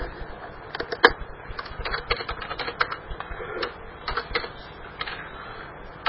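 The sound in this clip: Typing on a computer keyboard while entering a blog post title and content: many quick, irregular key clicks with no pauses and no talk.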